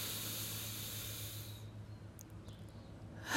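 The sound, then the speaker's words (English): A slow, deep breath taken while settling in to begin a grounding session: a long, soft, airy rush lasting well over a second, then it fades into near silence with a few faint clicks. “just going to take a nice deep breath”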